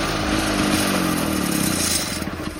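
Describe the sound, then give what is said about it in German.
A Trabant car engine running alone, a loud buzzing, rattling drone that holds steady and then turns choppier and more uneven toward the end. “Ey, der Trabi war das.”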